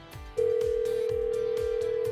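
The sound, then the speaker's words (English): A telephone line tone sounds as a radio show calls someone: one steady, mid-pitched tone holds unbroken after a short lead-in, over a rhythmic music bed. “So Jeremy, we're going to call Marcy up, get her on the phone, and try to get you a second date, okay?”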